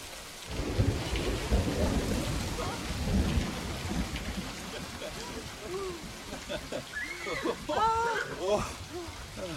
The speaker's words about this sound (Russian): дождик этот не кстати пошел. Прервал наше объяснение на самом чувствительном месте.